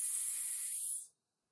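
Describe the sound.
A voice holds a steady hissing "s" sound, the opening sound of "sister" in a preschool phonics game. The hiss is even and fairly loud for about a second, then fades out quickly.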